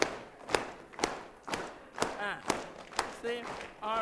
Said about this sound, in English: Now we're going around, let your two palms meet in here. Let your hand go here. We have a bass clap. Let's go.